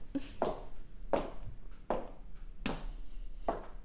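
Footsteps descend a narrow staircase, a steady series of firm thuds spaced under a second apart, each with a short scuff.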